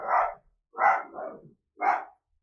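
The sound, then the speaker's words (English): A dog barks outside, four gruff, mid-pitched barks in an uneven rhythm, the second and third close together, each loud and clear with silence between. “Forgive the barking. That's just my dog outside.”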